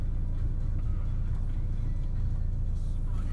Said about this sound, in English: Yeah, I'm driving a Mercedes at the minute. It's a little B-class Mercedes, a B180.